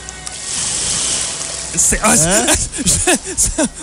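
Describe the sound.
A voice imitates water with a long, steady breathy hiss, then shifts into louder voiced, warbling and chirping sounds.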